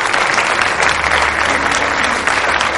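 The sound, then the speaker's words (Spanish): Applause in a music venue after a trumpet performance on stage, a dense, steady patter of clapping that stays even in loudness for about three seconds, with no voices. “Aplaude.”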